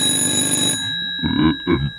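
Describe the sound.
A telephone rings on a hotline line with one bright, metallic, bell-like burst lasting under a second. It then cuts off, followed by brief, softer noises.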